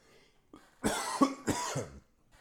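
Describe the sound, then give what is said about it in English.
Two strong, harsh coughs in quick succession from a dry throat after a cold, with softer breathy throat sounds just before and after, no talking. “my throat gets dry, and so I had to cough.”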